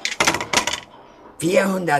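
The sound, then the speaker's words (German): Three dice are rolled in a game: a few sharp, rattling clatters come in quick succession, then stop. A short voiced sound follows near the end. “spielen Asterix und Miraculix, der Druide, gerade ein Spiel mit 3 Würfeln”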